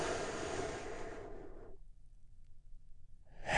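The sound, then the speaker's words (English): A deep breath drawn and released through the mouth: a broad, airy rush of air that thins and fades away, then near silence until a brief, soft breath sound begins at the end. “we do that by taking a big, deep, healing breath. Here we go, all together, and”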